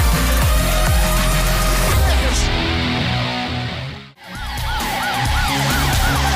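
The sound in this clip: A police siren wails at the end of a loud pop song: the music drops out briefly, then repeated rising-and-falling siren sweeps sound over the returning beat.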